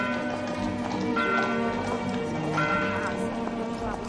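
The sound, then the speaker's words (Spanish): Hooves of a horse-drawn carriage clip-clopping as it moves away, a steady rhythm of light taps under sustained tonal music at an even level. “El coche de caballos se aleja.”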